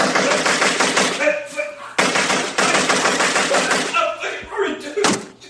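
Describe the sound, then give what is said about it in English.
Gunfire aimed at someone, heard as dense, loud, continuous bursts of rapid shots with sharp restarts and brief lulls, mixed with voices. “You like that? You like getting shot? Do you like getting shot? I don't like it. Stop. Do you want me to stop shooting you?”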